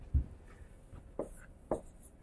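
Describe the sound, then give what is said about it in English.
Writing on a board makes a few short, soft strokes and taps spread apart, with quiet pauses between them. “So to make 3 prime, I take 3. I write it backwards.”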